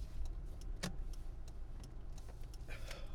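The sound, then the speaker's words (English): A car passes close by a person walking along a road, a faint, steady low rumble of engine and tyres with a few small ticks and clicks, no voices. “Sorry, this car came really close to bumping me.”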